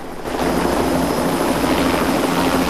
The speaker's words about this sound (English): From the viewpoint of the helicopter pilot circling one high-rise building